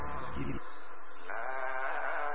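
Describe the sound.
Goats bleat in a long, wavering, nasal cry that stays loud and tonal, its pitch shifting partway through.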